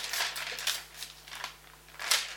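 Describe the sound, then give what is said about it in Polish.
Paper pages rustling as they are turned: several crisp, crinkly swishes at an uneven pace, moderately loud, with no talk. “Już szybciutko, kartki szeleszczą.”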